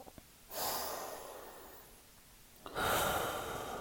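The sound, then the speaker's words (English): Slow, deep breathing during a guided meditation: two long, loud, breathy hisses, an inhale and an exhale, the first lasting about two seconds and the second a little over one, with quiet between them and no talk. “I inhale, and I am here. I exhale, and I am love.”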